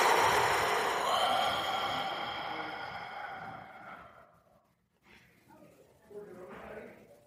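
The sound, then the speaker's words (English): A long, deep exhale, like an audible sigh, fades gradually over about four seconds into silence. A couple of softer breathy sounds follow, all fairly faint. “maybe your deepest breath yet today. Filling your lungs. Then exhaling every last drop.”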